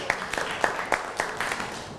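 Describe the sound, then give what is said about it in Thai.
A group of people clapping for themselves after a group activity. The claps are fairly faint and come in a quick, fairly regular run over about two seconds, with no voices over them. “ปรบมือให้ตัวเองหน่อยครับ”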